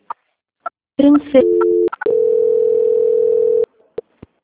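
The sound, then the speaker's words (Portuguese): Telephone line tones sound while a call is transferred to a quality-control department: first a brief warbling burst, then a short steady tone, then a longer steady mid-pitched tone. Short clicks come before and after. “nesse instante, eu vou estar transferindo a ligação para o controle de qualidade”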